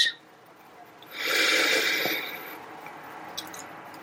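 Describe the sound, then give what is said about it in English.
A single deep breath drawn in through the belly: a long, soft, airy rush of inhalation that swells and then fades over about a second and a half, heard alone with quiet surroundings. “Taking a deep breath into your belly. So that means letting your belly extend out.”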